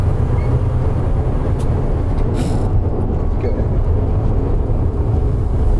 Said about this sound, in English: I'm putting the wing down now. Okay. And the wing is a plow that's on the passenger side, and it's now dragging. It makes a lot of noise.